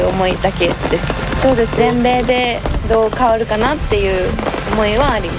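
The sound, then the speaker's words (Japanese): Raindrops patter on a tent roof in front of a golf tournament clubhouse on a cold, rainy day, a faint steady crackle running beneath a player's interview speech. “そのテントの中でインタビューをしていたんですけれども、ほんのパチパチパチパチこうテントを雨粒が、打ってる音が聞こえてきたと思うんですけれども”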